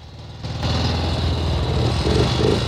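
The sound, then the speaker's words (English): A motorbike engine rumbles as the bike rides up a bumpy lane and pulls up, a low, steady throbbing drone that grows louder early on and then holds level. “Joe drives up the bumpy lane on his motorbike and pulls up in front of her.”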